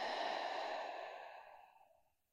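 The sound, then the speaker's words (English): A long, audible exhale during a guided meditation. It starts as a full, breathy rush of air and gradually trails off to quiet over about two seconds. “Take a breath into that space. And a breath out.”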